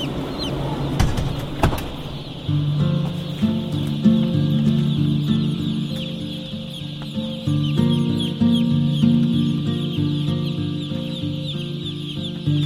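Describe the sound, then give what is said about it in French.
Chickens cluck and chirp without pause inside an industrial poultry house holding about 24,000 birds, forming a dense, overlapping flock noise. “Du coup, une fois que tes 24 000 poussins ils sont dans le bâtiment, t'as plus besoin d'y aller, toi.”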